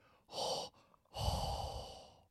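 Hot breath blown straight into a microphone: two loud, breathy gusts, a short one followed by a longer, slowly fading exhale, with no talking.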